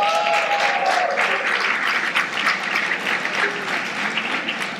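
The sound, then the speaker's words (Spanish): An audience applauds a couple's 25th wedding anniversary during a church sermon, a steady wash of clapping that eases slightly toward the end. “Un aplauso para ellos.”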